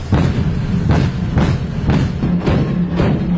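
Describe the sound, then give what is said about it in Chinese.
Repeated heavy booms from the Pingdingshan warship's main gun firing continuously at an aerial target. Thudding shots come at a regular pace of about two per second over a steady low rumble. “经过连续不间断射击，主炮成功摧毁空中目标。”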